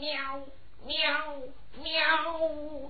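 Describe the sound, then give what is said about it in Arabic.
Three drawn-out cat meows in a desert. Each is a whining, harmonic cry, moderately loud and heard alone, with no talking over it. “قطة في الصحراء؟”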